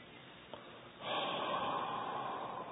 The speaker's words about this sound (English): Fast exhale from your mouth, long.